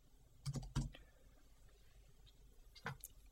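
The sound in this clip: Faint computer-keyboard clicks as an application name is typed into a folder search: a few sparse keystrokes in a short cluster, a long pause, then another brief tap.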